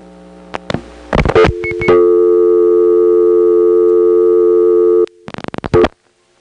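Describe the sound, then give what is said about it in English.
A number, 420, is dialed through a telephone exchange with crossbar and step switching: bursts of clicks lead into a loud, steady buzzing tone lasting about three seconds, which cuts off before another rapid burst of clicks. “So now I'll dial 420.”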